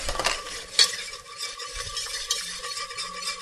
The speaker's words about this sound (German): die Butter, dann etwas angehen lassen, also eine Mehlschwitze.